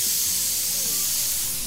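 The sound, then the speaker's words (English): Air hissing from a car tyre as a mechanic pulls a screw out of it during a tyre change: a steady, bright, continuous hiss holds an even level throughout over a faint low rumble. “So the mechanic's here now, and he's changing the tyres. He's pulling out the screw.”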